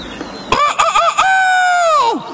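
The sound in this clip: A rooster on a gate crows once, loud and alone. The call opens with a few choppy, stuttering notes, then holds a long, strained, harmonic-rich note that drops in pitch at the end.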